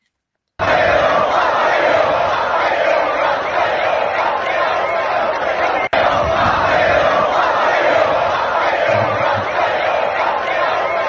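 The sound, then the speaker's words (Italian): A crowd cheering and shouting for Matteo Bobbi after the finish at Monza in 2025, a loud, unbroken roar that drops out for an instant midway before surging straight back. “Tra l'altro, per farvi capire quanto il pubblico ama il nostro Matteo Bobbi, noi abbiamo recuperato questo video.”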